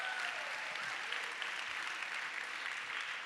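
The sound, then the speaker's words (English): A church audience applauds to welcome the online audience, a steady, dense wash of clapping hands that holds at an even level throughout without a break. “if you're here in person, would you put your hands together and welcome in our online family?”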